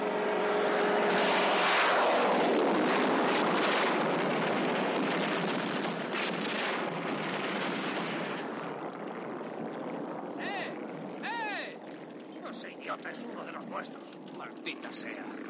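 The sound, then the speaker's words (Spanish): An aircraft fires two missiles that explode close by in a 1970 war film: a loud, broad roar fills the first half, then fades to a lower rumble with scattered sharper bursts and voices toward the end. “El avión les dispara dos misiles que estallan muy próximos a ellos.”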